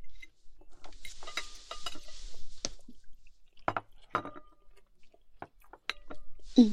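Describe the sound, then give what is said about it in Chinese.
Someone chews food with wet, smacking mouth sounds: many irregular clicks and squishes spread over several seconds, with short pauses between them and no talk. “快吃吧”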